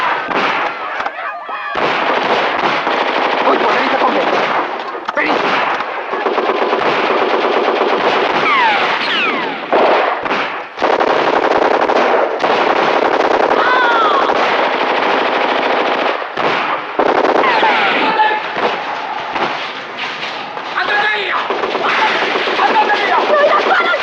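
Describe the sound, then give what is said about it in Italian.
Heavy machine-gun and rifle fire during street fighting in the Naples insurrection, loud and nearly continuous throughout, with brief dips and shouting voices at times. “Sparate! Continuate a sparare, io vado giù.”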